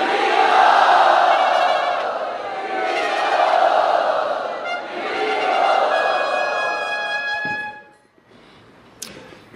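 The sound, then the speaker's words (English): A crowd cheers loudly to welcome guests at Radha Gopinath Temple. The roar holds for about eight seconds and rises and falls in a few swells, then cuts off abruptly, followed by a brief faint sound. “Let us loudly welcome Astasakhi and Ekanath Prabhu to Radha Gopinath Temple.”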